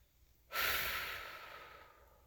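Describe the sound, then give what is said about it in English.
One deep breath, taken in and let out: a loud, airy rush that starts abruptly, then thins and fades over about a second and a half, heard on its own. “I want you to breathe it in and exhale.”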